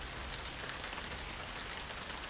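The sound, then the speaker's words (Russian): Heavy rain pouring down in a dense, steady hiss that stays loud and even throughout, with no voices. “а дождь, его верный друг, из ливня постепенно превращается в потоп.”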